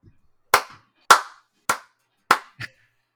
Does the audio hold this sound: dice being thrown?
no

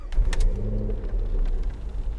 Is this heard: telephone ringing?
no

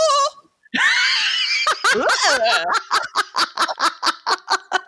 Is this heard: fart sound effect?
no

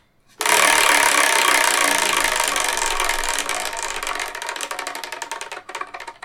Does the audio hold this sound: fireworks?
no

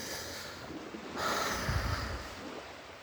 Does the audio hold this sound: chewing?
no

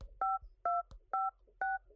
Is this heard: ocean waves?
no

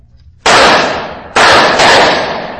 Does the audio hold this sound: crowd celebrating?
no

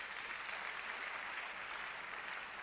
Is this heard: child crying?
no

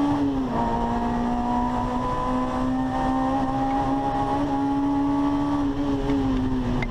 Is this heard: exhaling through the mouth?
no

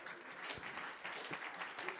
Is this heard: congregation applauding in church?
yes

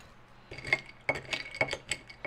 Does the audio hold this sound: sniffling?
no

